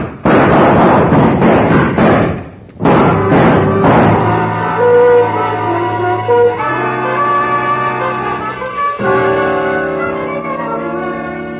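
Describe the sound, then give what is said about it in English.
Gunshots in an old-time radio crime drama. A rapid burst of loud, sharp shots fills the first few seconds, then a swell of dramatic orchestral music takes over and plays on alone. “Roy Corona made a good try, as well he might have, since he went to Mrs. Hayes and started the whole thing. But his shots went wild”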